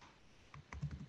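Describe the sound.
Soft typing on a computer keyboard as a sentence is written into a chat, with a few quiet key clicks bunched in the second half and no talk.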